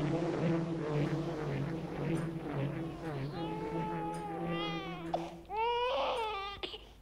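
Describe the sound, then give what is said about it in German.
A child cries in a dramatized household scene, a few rising, high wailing sobs in the second half that grow louder and more strained, over a low steady hum and murmur before them. “Warum schreit dieses Kind noch immer?”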